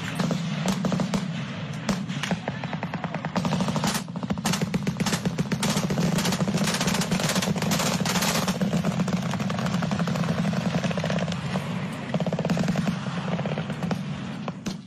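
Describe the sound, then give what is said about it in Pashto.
Heavy weapons fire exchanged across the Afghanistan–Pakistan border: many sharp, irregular cracks and bursts over a constant low drone, dense and loud throughout. “په انټرنیټ خبرې سوي ویډیوګانې ښیي چې د متقابل لوري په یو بل باندې د درنو وسلو ډزې روانې دي”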